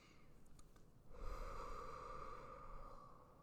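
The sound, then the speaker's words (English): A person breathes deeply in a long, steady breath that swells after a quieter first second and stays even to the end, with no talking. “Let's all breathe, okay? Let's just all breathe for a second together.”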